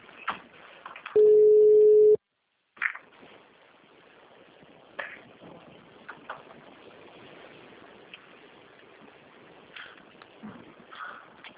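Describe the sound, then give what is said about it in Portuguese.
A single steady ringing tone, about a second long, sounds while someone calls a person to add her to a group call. Faint voices and low noise follow. “Deixa eu já ligar para ela para incluir.”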